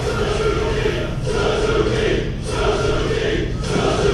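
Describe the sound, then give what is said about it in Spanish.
An arena crowd at a Pro Wrestling NOAH-style wrestling event chants along in unison to Suzuki's entrance theme. The blended voices form a broad, steady roar that swells and dips in a regular rhythm about once a second. “Y el público, escuchamos al público coreando el tema musical de Suzuki.”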